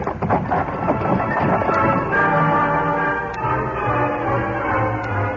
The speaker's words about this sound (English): A short time later, the horseman and the wagon turned off the road and headed south toward the Chisholm Trail. Come on, Silver. Get up there.